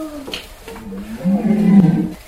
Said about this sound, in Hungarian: Szarvas. Így van, ez pedig a szarvas